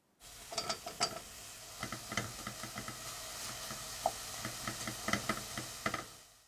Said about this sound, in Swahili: Kaanga uyoga hadi uwe laini na uepue.